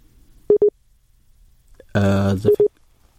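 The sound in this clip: Telephone tones from a failed call-in connection: a pair of short, steady low beeps, a brief voice, then another matching pair of beeps, with near-silence between.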